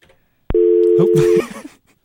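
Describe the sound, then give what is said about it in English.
A telephone dial tone follows a call-in caller's disconnection: a click, then one steady, fairly loud low hum lasting just under a second that cuts off abruptly, leaving faint scattered noise. “I'm sorry. We lost our caller.”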